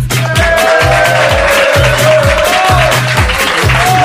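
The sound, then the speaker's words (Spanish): An audience at a live radio show makes a dense, loud wash of applause and cheering, with a repeating low thump pulsing underneath at a steady pace throughout. “pasando una buena tarde con todo ese público que viene y que hace un ruidito tal que así.”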